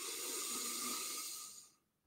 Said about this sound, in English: and just literally breathing into the belly and then letting that, allowing that air to just tumble out. So breathing in